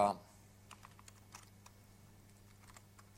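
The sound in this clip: Someone types a command on a computer keyboard. Light, quiet key clicks come at irregular intervals over a faint, steady low hum.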